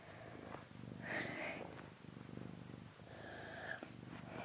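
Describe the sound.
Soft, steady purring of a house cat, a low continuous rumbling pulse that carries on throughout, very quiet and with no talk over it.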